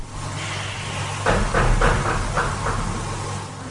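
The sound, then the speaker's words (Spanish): Several dull knocks strike a window from the outside, about seven or eight metres above the ground, in a short irregular series over a steady low hum. They are fairly muffled and come without any talking. “Acaban de golpearme en la ventana que tengo a mis espaldas.”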